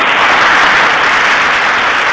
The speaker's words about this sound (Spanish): La audiencia te aplaude.